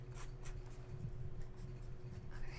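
Faint scratching of a pen writing on a sticky note, a few short strokes over a low, steady hum.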